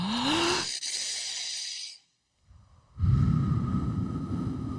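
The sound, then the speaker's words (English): A deep breath drawn in and let out: a long, airy rush, a brief silent pause, then a loud, breathy exhale that holds steady to the end. “let's all take a deep breath You too, listener at home.”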